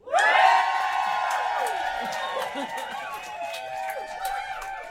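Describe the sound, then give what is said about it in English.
A live audience at a show at the Edinburgh Fringe bursts into loud cheering and whooping all at once, a sustained roar of many voices that eases slightly but keeps going to the end. “What we're going to do is we're going to get a nice big cheer from you lot so that we can edit it in for when you don't laugh and you don't cheer.”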